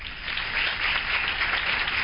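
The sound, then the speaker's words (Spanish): Audience applause after a song at a concert: a loud, continuous, dull-toned clatter of many hands clapping that swells slightly and holds to the end. “Eso, qué bonitos aplausos.”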